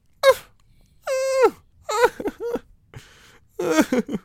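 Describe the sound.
A voice imitates loud crying in several wailing, sobbing bursts, one long sustained wail among shorter broken cries, all high-pitched and strained.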